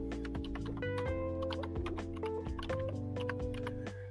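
Typing on a computer keyboard: many quick clicking keystrokes in irregular bursts, heard over steady sustained humming tones.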